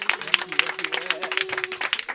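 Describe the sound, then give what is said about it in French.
Scattered audience applause with sharp, uneven claps across a couple of seconds, alongside a steady sustained tone. “Applaudissez. Applaudissez, s'il vous”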